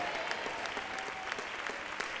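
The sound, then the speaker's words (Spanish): Applause from a church audience during a sermon: a continuous wash of many people clapping, steady and moderately loud from start to finish, with a few sharper claps standing out from the texture. “Si le va a dar un aplauso al Señor”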